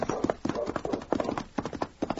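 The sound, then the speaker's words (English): Horse hooves clip-clop along a bending trail under a Mountie's mount, many crisp, evenly paced hoof strikes at moderate volume in a brisk walking rhythm, with no voices. “suddenly Sergeant Preston's horse stumbled”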